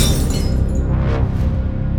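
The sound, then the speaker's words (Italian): A crystal brandy glass slips from someone's hands and shatters on the floor, a loud, dense crash of breaking glass and scattering shards that stays intense for about two seconds. “Il bicchiere gli scivola dalle mani, inondando il pavimento di frantumi di cristallo.”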